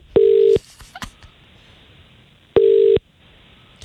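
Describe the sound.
Two long electronic beeps from a telephone number being dialed for a live radio call, separated by a couple of seconds of near quiet with a few faint clicks.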